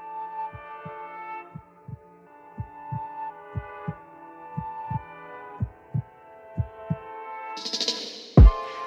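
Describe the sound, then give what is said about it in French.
Low, regular heartbeat thumps repeat steadily over a sustained humming drone, and a short burst of noise and a heavy thud close the passage. “T'entends les battements de cœur.”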